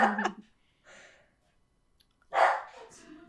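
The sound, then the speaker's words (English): A dog barks a few times, short sharp barks with pauses between them; the first and last are loud and a fainter one falls in the middle, with no talking. “That's my dog barking in the background.”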